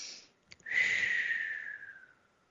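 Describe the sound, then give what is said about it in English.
A slow, deep breath, faint and airy, drawn out over about a second and a half after a brief sniff-like click. “let me just take a second, take a deep breath”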